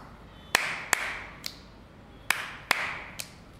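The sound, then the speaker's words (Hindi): Finger snaps sound in a sequence game: six crisp, sharp clicks in an uneven pattern, each with a brief ringing tail, and no talking between them. “अब बताओ इसके आगे क्या आएगा? चुटकी। चुटकी। बिल्कुल ठीक।”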